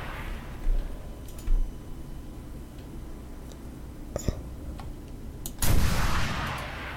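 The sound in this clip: Rocket and gunfire strike a tank in a video game: a few sharp, short bursts over a low rumble, then a louder, longer blast near the end.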